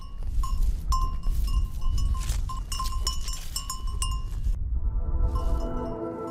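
Bleating of a sheep flock with a newborn lamb, mixed with bright metallic clinking and a low, busy rumble of movement throughout, without talk.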